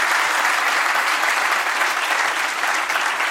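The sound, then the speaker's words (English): Audience applause fills the whole stretch as steady, dense clapping from a crowd. It stays loud and even throughout, with no voices over it. “Yeah, please give a hand.”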